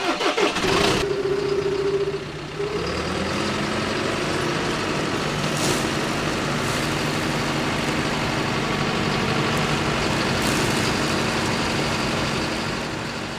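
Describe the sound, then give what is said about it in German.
A 120 hp slope mower's engine starts up and settles into a loud, steady drone that runs unbroken for over ten seconds. “sitzt Max Plettel zehn Stunden täglich in seinem 120 PS Böschungsmäher”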